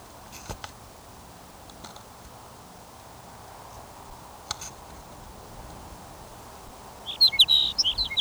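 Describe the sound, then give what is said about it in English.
A sage sparrow sings a short, high, twittering phrase at the very end, after several seconds of quiet hiss broken by a few faint clicks. “Sage Sparrow number 7.”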